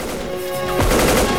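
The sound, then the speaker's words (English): A soldier empties a full magazine: a burst of rapid automatic gunfire cuts in abruptly partway through and keeps hammering, loud and continuous, to the end. “Another soldier unloads a magazine, but his bullets simply bounce off Solo.”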